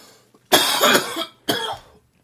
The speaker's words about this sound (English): You're coughing into a microphone, and it's going to be louder than whatever I'm saying, so I might as well just stop talking.